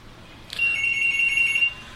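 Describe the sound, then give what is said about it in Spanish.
A telephone rings with an incoming call: a soft click, then a steady high electronic tone with a faint pulsing beneath it, holding for about a second before stopping. “Una llamada entrante.”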